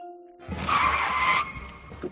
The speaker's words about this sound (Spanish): No llevábamos mucho tiempo en el coche, es verdad, cuando de repente volví a frenar en seco.